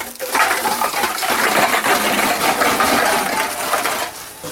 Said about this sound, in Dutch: een machine waar je in één keer meer dan 100 statiegeldblikjes en flesjes kunt weggooien. Een zogenoemde bulkmachine. En zo werkt die. Ik druk nu op open. Het luik gaat open. Daar gaan we.